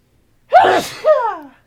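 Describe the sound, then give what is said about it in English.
A person gives a single loud sneeze, a sharp explosive burst followed by a gasping second push, heard alone with no talk. “I have to sneeze.”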